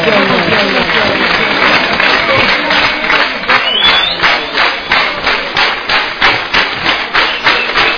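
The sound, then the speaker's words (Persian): An audience claps along in a steady, even beat, the rhythm settling in after a few seconds of dense crowd noise and carrying on loudly, with voices mixed in. “یه کف مرتب بزن بزن او عقبی ها، اگه دست داری دست بزن”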